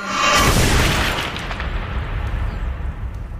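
A bomb explosion sound effect: a loud, deep boom bursts at the start, then dies into a long, rumbling, crackling decay, with no voices.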